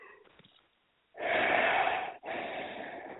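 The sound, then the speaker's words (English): A yawn from someone recapping basketball scores: a long breathy rush of air, a short break, then a second drawn-out breathy stretch, fairly loud and without clear voicing. “these yawns are absolutely destroying me right now. I apologize for that.”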